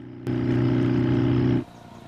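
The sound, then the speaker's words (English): A motorcycle engine drones at a steady, low pitch while the bike is ridden, loud and even, starting abruptly and cutting off after about a second and a half. “rides his motorcycle in sunshine, his coattails flapping behind him.”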